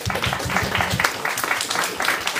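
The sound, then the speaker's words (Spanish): Audience applause at a live comics event, a dense, steady wash of clapping that carries on without a break for the whole clip. “y también un aplauso para mi buen amigo Spike”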